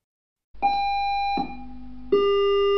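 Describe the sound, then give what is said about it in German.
A fire station alarm sounds three sustained electronic tones in a row. The first is high, the second drops noticeably lower, and the third rises slightly. Each tone holds steadily and starts abruptly. “Alarm! Alarm!”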